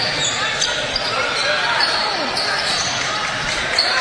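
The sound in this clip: A basketball is dribbled on a court during a game. The bounces blend into a steady wash of crowd noise and voices.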